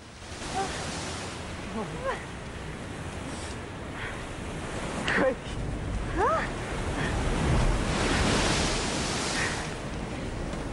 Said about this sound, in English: Waves crash against the rocks which protrude out of the sea.